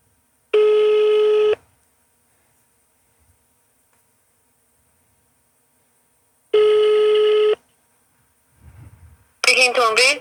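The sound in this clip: Ringing on an outgoing phone call: two long, steady buzzing ring tones separated by several seconds of silence. A brief rustle follows, then a voice answers at the very end.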